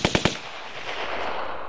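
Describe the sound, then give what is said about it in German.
Three rapid, sharp gunshots fired by East German border soldiers at the Berlin border fence crack out in quick succession, followed by a long, fading rumbling tail. “22 Schüsse werden auf die jungen Männer abgefeuert.”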